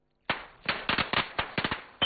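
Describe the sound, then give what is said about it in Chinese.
Strings of firecrackers crackle by a roadside and a few double-bang rockets burst, making a rapid, irregular run of many sharp, loud cracks and pops in quick clusters. “马路边忽然围了一群人，鞭炮声噼啪响起，见货还有几只高升窜到半空炸开，震耳欲聋。”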